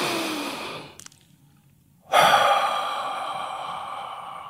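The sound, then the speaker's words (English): A person takes a deep breath: a long breathy rush of air, a brief near-silent pause, then a louder, sustained breath that trails on steadily. “So, if you're ready, take a deep breath.”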